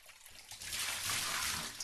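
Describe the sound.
Water being flushed away down a drain in a bath: a soft, steady rushing trickle that swells after a quiet start and keeps flowing to the end.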